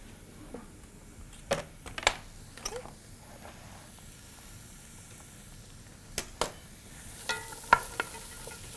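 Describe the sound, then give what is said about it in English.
Celery and carrots are pushed off the back of a knife into a hot pan, giving a few scattered scrapes and taps over a faint, soft sizzle, quiet overall. “I'm going to use the back of my knife so I don't dull my blade and just push them right into the pan.”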